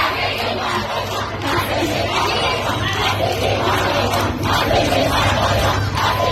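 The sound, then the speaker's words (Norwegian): Female students at a protest in Shiraz, Iran, chant together demanding that the secret police leave. The many voices are loud and rhythmic, with repeated shouted phrases over a constant crowd roar. “Dette er lyden av kvinnelige studenter i den iranske byen Shiraz som ber det hemmelige politiet ryke og reise.”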